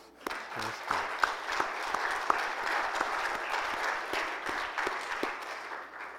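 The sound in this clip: A church audience claps to honor young couples who are having children, a sustained, even wash of applause with a few sharper individual claps standing out.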